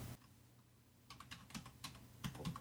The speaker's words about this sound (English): Okay, it automatically puts you into a field where you type your email address. So I will do that right now.